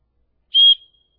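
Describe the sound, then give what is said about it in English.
A referee's whistle, as used by officials at basketball or football games, sounds one short, shrill blast on its own, then a brief fading tail into silence. “When somebody breaks the rules, what do they do? They blow the whistle.”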